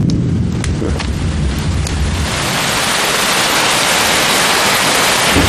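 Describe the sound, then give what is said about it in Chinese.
Thunder and rain: a loud, low rumble of thunder with a few sharp crackles at the start, giving way to a steady, dense roar of heavy rain, with no voices. “怎么回事？正是这么大的雷啊，吓我一跳。看看，要下雨了。”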